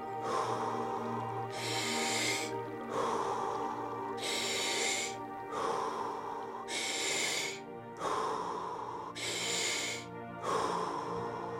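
Deep breaths during a short guided breathing exercise, heard as several slow, even breaths, each a soft rushing burst separated by brief pauses, over a steady low musical drone.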